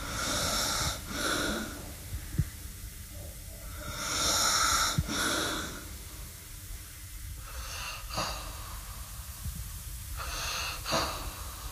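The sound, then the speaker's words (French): Sleeping patients breathing: a few slow, hissing breaths with snorts and wheezy snoring, spaced several seconds apart, fairly faint and without talk. “Il n'y en a pas un qui respire pareil, quoi. C'est chaque malade, même quand il dort... Ils sont différenciés par leur manière de respirer.”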